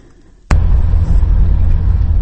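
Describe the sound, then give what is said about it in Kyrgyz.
Engine rumble of a UAZ off-road vehicle driving a rough mountain road from a remote village. A short quiet stretch gives way to a sudden loud, steady low roar that continues to the end. “Биз азыр Алайкуунун алыскы Көк Арт айылынан райондун борбору Карагулжаны көздөй УАЗ автоунаасына кетип баратабыз.”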